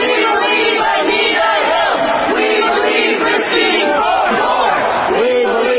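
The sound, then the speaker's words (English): A crowd of protesters demonstrates against a Supreme Court nomination, with many voices shouting and chanting together. The sound is loud, continuous and dense, with no pauses. “That's the sound of some demonstrators who are protesting Brett Kavanaugh's Supreme Court nomination.”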